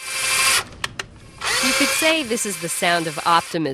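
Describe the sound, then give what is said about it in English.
A power drill whines in a short, loud burst as office furniture is installed for a new startup in downtown Denver. A few sharp clicks follow, then a voice speaks. “Yet in downtown Denver, office workers are installing furniture for a new startup.”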